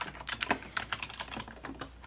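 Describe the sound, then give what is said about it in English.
Typing on a computer keyboard, many soft, quick, irregular key clicks in uneven bursts, fairly quiet and alone without any talk. “I'm always like wanting to throw it in the pile. Need to remember to type it in, you know?”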